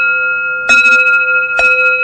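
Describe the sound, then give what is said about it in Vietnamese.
A temple bell is struck twice. Its loud, steady metallic ringing tone sustains throughout, and each strike adds a brief bright clang. “thì cái tiếng chuông này vang lên, nó chia đều ra. Và cái tiếng chuông nó ngân, nó không có chát. Cho nên ví dụ như mình thỉnh chuông, mình thỉnh vậy nè”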